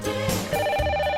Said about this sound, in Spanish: Venga, tenemos llamada.